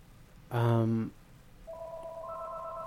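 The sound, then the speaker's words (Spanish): A telephone rings once for an incoming call to a radio show. The short, loud, buzzy ring is followed by steady electronic line tones. “vamos a tomar otra llamadita por aquí. Amén. Hoy sí nos están llamando, creo.”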